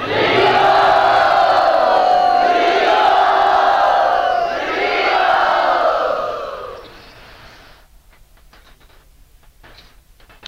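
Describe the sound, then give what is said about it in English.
An audience cheering and whooping loudly in an enthusiastic welcome at a gathering, swelling twice before fading to a quiet murmur. “let us very, very enthusiastically welcome Vaidyanath Prabhu”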